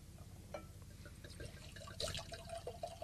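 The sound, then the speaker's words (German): Wine, a cuvée blended from several grape varieties, is poured into a glass. A quiet, uneven liquid trickle and splash runs for about three seconds, with soft glassy clinks and no talk. “Allein schon das Geräusch, wenn man Wein einschenkt.”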